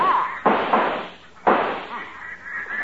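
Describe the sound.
Two shotgun blasts ring out during a duck hunt in a radio drama, each a sharp, loud crack that decays into a long noisy tail, about a second apart.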